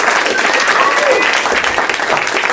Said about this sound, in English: Doug Loves Movies is coming to you from the UCB Theater in Los Angeles in front of a live audience! That's them.